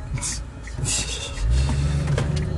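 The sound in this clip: A car driving, heard from inside, with a low engine and road rumble that swells louder midway, plus faint rustling and brief higher rubbing noises.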